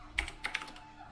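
Typing on a computer keyboard with a sticking R key: a few brief, faint clicks in quick succession, then quiet.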